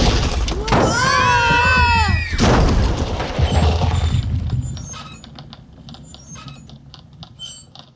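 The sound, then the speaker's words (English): Lava bomb from an erupting volcano crashing down, an audio drama effect. A loud crash and heavy rumble are followed by quieter, scattered crackling patter as the sound fades. “Is it possible one of the volcanoes is erupting again? Sure, it's possible. Volcanoes can erupt for days. I was actually surprised when it stopped. Toothpick? The volcano starts to... Lava bomb!”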